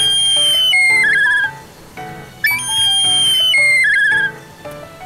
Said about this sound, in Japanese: これはトビですね。